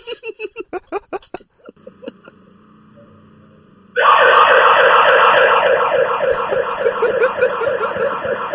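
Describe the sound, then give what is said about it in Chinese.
A home alarm siren blares, a loud, steady warbling wail that cuts in abruptly after a rapid series of short beeps and a quieter humming tone. “听唔听到啊？喂，听唔听到啊？响鸣嘅警报器啊！”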